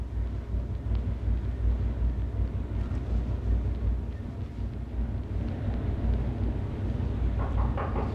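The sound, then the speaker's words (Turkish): Low rumble of a cargo ship heading out onto the ocean, a steady deep roar with wind-like noise throughout and no voices. “Şilep okyanusa açılır.”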